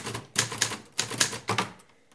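Typewriter keys clack in quick, uneven bursts as someone types on paper fed into the machine. The strikes are loud and crisp, with no voices.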